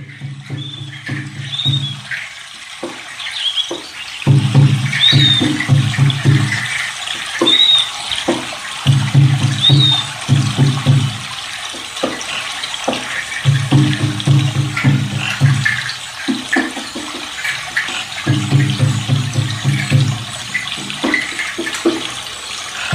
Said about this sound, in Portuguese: Cachoeira!